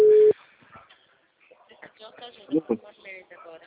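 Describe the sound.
A single short, loud telephone tone while placing a call, steady and mid-pitched, then quieter line noise and faint voice-like sounds.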